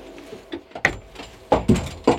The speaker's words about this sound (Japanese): 今僕が座ってるのはね、背もたれはあるんですけど車輪がついてるので、 はい、 ちょっと椅子を取り替えます